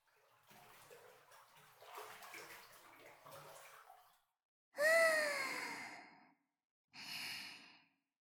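Hot bath water splashes and sloshes in a bathtub in a soft, continuous wash, followed by two long, breathy voiced sighs separated by a short pause.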